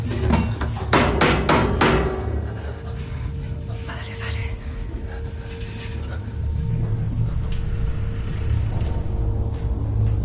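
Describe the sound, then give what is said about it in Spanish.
Hammer striking the metal wall of a submarine escape hatch chamber, a few sharp ringing clanks in quick succession at the start, followed by a steady low rumbling hum. “Golpea la pared con el martillo.”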